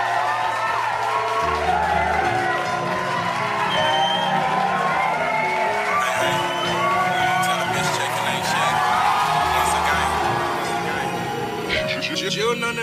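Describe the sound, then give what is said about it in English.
A live audience cheers and applauds musical guests being introduced on stage, with whoops and shouts rising over steady clapping that continues for the whole stretch. “Please help me in giving them a round of applause.”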